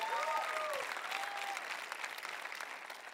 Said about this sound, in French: J'aimerais que vous leur donniez une ovation ce matin.